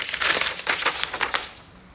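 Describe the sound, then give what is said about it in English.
Paper crinkles and rustles as an envelope is opened and an official summons is pulled out, a run of quick, crackly bursts that trail off into quiet toward the end. “Joe's with Hutton, who opens an envelope and takes out an official summons.”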